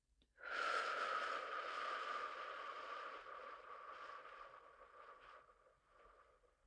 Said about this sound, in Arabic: نحبس النفس زفير من الفم